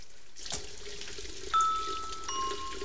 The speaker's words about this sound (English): He finishes applying cream and washes the brush.